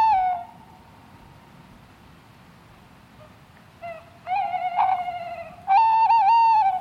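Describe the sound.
A male owl sings at night to mark its territory, sending a few tonal, whistling calls over a faint, steady background hum. The calls waver in pitch and grow louder toward the end, with the last held longest.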